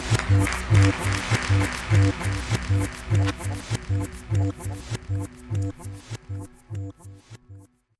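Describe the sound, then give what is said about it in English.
An audience applauds loudly in a strongly pulsing, almost rhythmic wave of claps that carries on steadily before cutting off abruptly just before the end. “Congratulations. Give yourselves a hand.”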